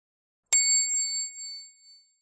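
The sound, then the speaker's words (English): A single bright bell chime signals a page turn in a children's read-along book. It is one clear, high ding with ringing overtones that fades away smoothly over about a second and a half. “Turn the page when you hear the bell.”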